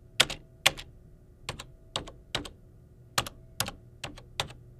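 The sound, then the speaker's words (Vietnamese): Typewriter keys struck in a series of sharp, bright clacks with short uneven pauses between them, ten or so strikes in all, clear and alone with no talking. “Âm thanh mà quý vị vừa nghe phát ra từ một chiếc máy đánh chữ”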